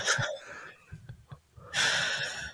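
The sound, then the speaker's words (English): Deep breathing through the diaphragm: two long, loud, breathy passages with a quieter stretch of faint clicks and soft noises between them. No talk. “You ready? Breathe. Oh, good. You got to use your diaphragm when you breathe.”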